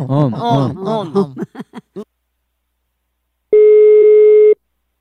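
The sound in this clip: A telephone ringback tone sounds while a prank call is placed. After a stretch of people talking and a pause, one steady, loud, mid-pitched tone holds for about a second, then stops.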